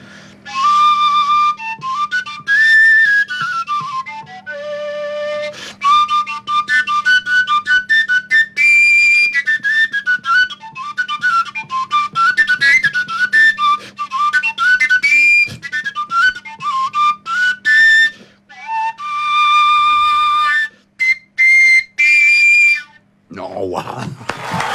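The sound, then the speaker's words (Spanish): A willow flute without finger holes plays a wavering melody, its notes changed only by breath strength. Bright whistling tones rise and fall in short phrases over a steady low hum, ending with a brief breathy burst. “Flauta de sauce. Y es un instrumento que es una flauta, pero no tiene orificios. No, pues. Y entonces las distintas notas se hacen solo con la intensidad del aire y suena así,”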